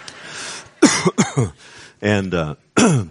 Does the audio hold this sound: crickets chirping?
no